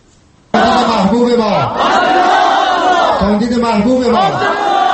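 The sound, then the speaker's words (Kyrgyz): A large crowd gathered in Afghanistan's Panjshir valley cheers and chants loudly for presidential candidate Abdullah Abdullah at a campaign rally, with many voices shouting together in rising and falling waves. “Же айдын аптабында Кабулдан түндүгүрөөк тараптагы Панчжер өрөөнүндөгү бийик тоолуу аймакта чогулган эл ушинтип Абдулла Абдуллага кызуу колдоо көрсөтүп жатышты.”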